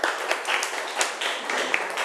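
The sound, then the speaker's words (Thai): Classroom applause for a student: a soft, steady patter of many hands clapping continuously for about two seconds. “ปรบมือเพื่อนหน่อยครับ”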